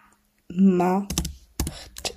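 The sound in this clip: Typing on a computer keyboard: after a short spoken word, a few quick bursts of sharp key clicks arrive in irregular clusters, fairly faint and close together.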